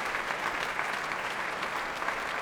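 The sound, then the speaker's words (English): Hearty applause from the BBC Scottish Symphony Orchestra for pianist Angela Hewitt on the stage of the Royal Albert Hall: a dense, steady patter of many clapping hands, even in loudness throughout with no voices. “Angela Hewitt returning once again to the platform, being heartily applauded by the BBC Scottish Symphony Orchestra, who provided a very close-up audience for her in that here on the stage of the Royal Albert Hall.”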